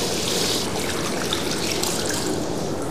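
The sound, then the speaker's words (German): Running tap water flows steadily while hands are washed under it, a continuous splashing hiss that holds even for the few seconds with no talk. “So, Hände waschen, 10 Sekunden lang, ne?”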